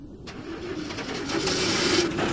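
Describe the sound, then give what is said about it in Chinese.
A motorcycle engine drones steadily as it rides into an intelligence bureau courtyard, a continuous mid-pitched hum that grows louder midway through. “廖飞骑着摩托车进了情报局的院子”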